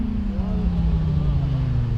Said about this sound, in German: Beim nächsten Motorrad fällt Thomas Schreck die Lautstärke auf. Einmal bitte den Motor ausschalten.